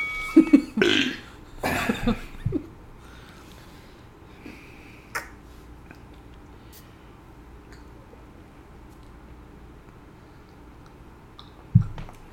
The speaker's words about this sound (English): I'm going to edit out all these burps.